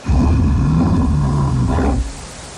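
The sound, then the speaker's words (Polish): A loud, deep roar from bears lasts about two seconds with a rough, growling low rumble before it cuts off abruptly, leaving faint background noise. “A to odgłos niedźwiedzi.”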